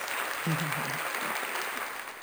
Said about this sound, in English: If you listen, you can hear the audience.